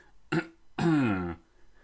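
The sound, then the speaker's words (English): Deliberately dramatic throat clearing: a short rasping burst, then a longer, louder voiced, growling clear with a slightly falling pitch, heard on its own. “Better clear my throat dramatically for the sake of setting the scene, but also not do it so close to the microphone that it sounds really gross and puts you off.”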